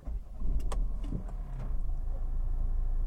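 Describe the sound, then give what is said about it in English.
Cabin rumble of a Volvo rental car being driven: a steady, low engine and road hum throughout, with a few faint clicks early on. “and we're driving a Volvo.”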